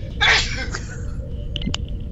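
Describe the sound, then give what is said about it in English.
One short, sharp sneeze bursts out near the start over a quiet, low background hum, followed by a few faint small clicks. “Was that a sneeze or a laugh? Because it was a sneeze, sorry.”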